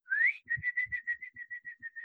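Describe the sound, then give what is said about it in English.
A person whistles to imitate a man calling a dog toward a bone held out through prison bars: one rising whistle, then a quick run of many short, even, high chirping notes. “And the one guy is whistling and he's going,”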